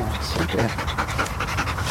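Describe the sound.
A Belgian Malinois pants: a female search-and-rescue dog from a police canine unit. Quick, breathy pants repeat in a steady, rapid rhythm, loud over constant background noise throughout.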